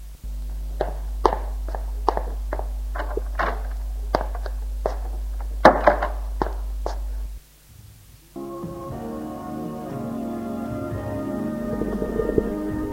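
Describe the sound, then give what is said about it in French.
Footsteps of a woman going up to her bedroom: many evenly spaced, sharp steps over a steady low hum. After a short pause, music starts. “Elle monte dans sa chambre.”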